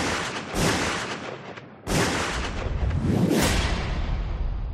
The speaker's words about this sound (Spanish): La reacción de él fue sacar su pistola y dispararle 3 veces.